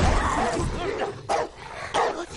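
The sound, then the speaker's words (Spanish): A Rottweiler barking at a car: a few deep, forceful barks mixed with yips and whines, fairly loud and close together. “¡Deja mi puto coche, perro de mierda! Un Rottweiler babea por fuera la ventanilla.”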